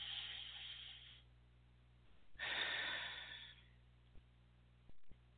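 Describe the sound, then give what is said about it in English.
Deep breaths taken during a guided breathing pause: two long, soft, airy rushes of breath separated by a quiet gap, with a couple of faint clicks afterward and no talking. “Take a deep breath. Let's take a deep breath. One more.”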